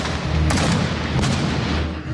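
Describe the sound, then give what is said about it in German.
A bombard cannon fires balls into water during a staged theatre spectacle. Two sharp booms stand out against dense, continuous rumbling noise. “Es knallt und raucht. Eine Bombarde feuert Kugeln ins Wasser.”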